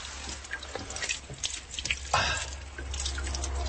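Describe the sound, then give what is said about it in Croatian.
Murmuring trickle of a naturally carbonated mineral water spring in Montenegro, a steady gurgling flow with small drips and splashes, fairly faint and without voices. “Ovaj žubor je originalni žubor Bilopojske nadaleko čuvene kisele vode.”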